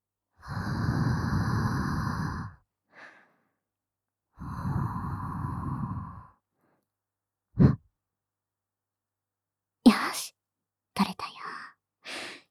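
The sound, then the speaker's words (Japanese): Air is blown gently to remove something stuck, in two long, soft, breathy puffs of about two seconds each. A few brief, quiet breaths and mouth sounds follow. “ふうふうして取ってあげる。”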